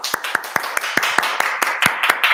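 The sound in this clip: Crisp individual hand claps in a steady, evenly spaced rhythm, many sharp strikes in a row, as spontaneous applause for a guest.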